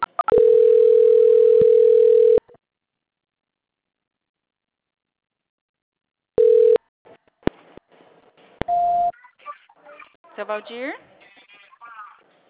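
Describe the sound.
Steady telephone line tone plays during a call transfer, holding for about two seconds, then a short burst of the same tone returns with a few clicks before voices come in.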